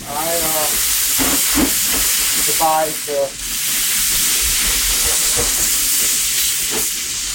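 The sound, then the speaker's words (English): Steam hisses and sizzles loudly as water is sprayed onto a hot barbecue fire beneath cooking meat, a continuous, steady rush with brief voices talking over it. “Oh, wait, Gary's spraying water. Look out.”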